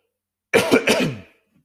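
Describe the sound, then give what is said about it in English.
A choking cough after inhaling spit too fast: a few harsh, raspy throat-clearing bursts in quick succession, loud and alone, trailing off into quiet. “Excuse me. I choked on some spit. I inhaled too fast.”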